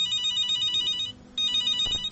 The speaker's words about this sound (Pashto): غواړي چې اړیکه ته ځواب ووایي